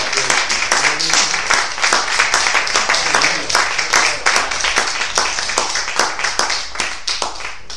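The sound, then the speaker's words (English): Audience applause in church as a speaker is welcomed: dense, steady clapping from many hands, loud and continuous throughout. “So if you all just do me a favor, just put your hands together for the Lord Jesus Christ Amen.”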